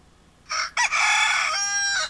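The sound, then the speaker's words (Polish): A rooster crowing alarm tone plays from a BlindShell Classic phone: one loud, bright crow with a brief break near its start, sounding alone. “Rooster alarm wybrane.”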